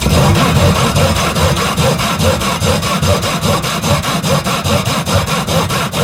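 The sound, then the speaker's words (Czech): Sawing sounds as many quick, even strokes in a steady back-and-forth rhythm, rasping and loud, with no voices. “Pokud jste to nepoznali, tak se jednalo o zvuk řezání.”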